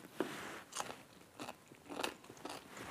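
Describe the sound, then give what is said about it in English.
Crisp crunching bites of a homemade cold pickle with dill and a spicy chili pepper, a few sharp, crackling crunches at irregular intervals with soft chewing between, quiet and alone. “Time for a taste test.”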